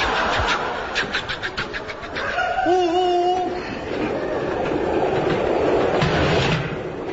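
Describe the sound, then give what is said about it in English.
A train runs steadily with a continuous rumble and rattle, alongside a few brief tonal squeals partway through, and no voices. “Hey, you're supposed to be driving this train.”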